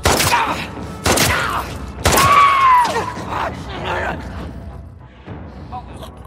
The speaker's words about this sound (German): Diese zog ihre Waffe und erschoss sie.